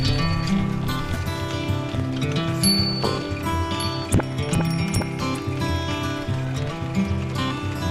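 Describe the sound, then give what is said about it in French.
Rattles and clicks from an old Yugoslav Rogue bicycle being ridden through Ljubljana, with a few sharp knocks over the ride, all under steady music. “Balade dans Ljubljana à vélo.”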